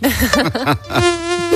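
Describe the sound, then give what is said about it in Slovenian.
A mosquito whines loudly in an insect-repellent advert, its nasal buzz swooping up and down in quick arcs before settling into a steady, level drone. “Za boj proti komarjem obstaja boljši način.”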